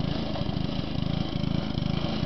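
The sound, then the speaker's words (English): A walk-behind mower with an old-fashioned sickle bar on the front cuts marsh grass along ditches. It makes a continuous small-engine drone with a rapid, steady pulsing chatter at even loudness. “A walk-behind mower. And it has an old-fashioned type sickle bar on the front of it.”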